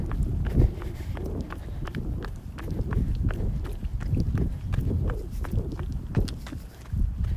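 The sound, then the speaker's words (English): Running footsteps on a morning run during a vacation: a long series of rhythmic footfalls with a steady, brisk pace and fairly loud, regular impacts throughout. “This is day 5 of my vacation, and I've just started my run.”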